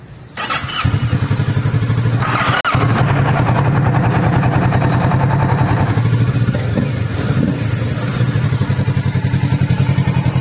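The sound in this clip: A motorcycle engine starts with a push-start button, catching quickly and then settling into a loud, steady idle with a rapid, even chug that runs on to the end.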